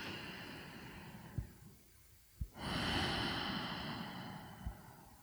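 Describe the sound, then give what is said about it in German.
A slow, deep, conscious breath is drawn and released, faint and alone. A soft airy stretch fades into a pause, then a longer, fuller breath follows, with a few faint soft thumps. “das allererste, was du wirklich tust, ist bewusst atmen, durchatmen, dir einen Atemzug zu nehmen, der”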